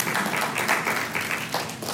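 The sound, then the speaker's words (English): Audience applause, a steady, dense wash of many hands clapping that holds at an even level for about two seconds. “Let's give him another applause.”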